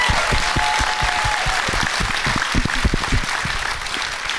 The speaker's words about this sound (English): let's hear it for Charlene, everybody.